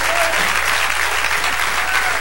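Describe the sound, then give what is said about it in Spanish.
A church audience applauding during a Spanish-language service: thick, steady clapping that fills the whole stretch, with a faint voice beneath it. “Sí, dale el aplauso al Señor.”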